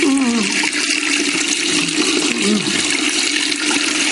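Water is poured from a cooking pot over a person's soapy hair at a sink, making a loud, continuous splashing gush that runs the whole time without talking.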